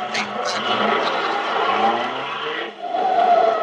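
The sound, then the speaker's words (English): A car starts and pulls away fast, with a steady, loud engine whine throughout, possible tire squeal, and a short dip in level just before the end. “I'm going to start the car and I'll watch it because I got a pretty fast pickup.”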